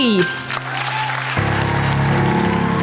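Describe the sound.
Audience applause for the MC of an improvised musical show: a voice finishes speaking, then loud, dense clapping builds and holds steady to the end.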